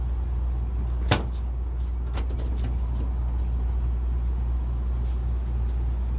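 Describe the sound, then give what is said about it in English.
A Ford Transit van door opens with one sharp latch clunk, followed by a few lighter clicks and knocks, all over a steady low hum with no talking. “So we should be able to open this other door”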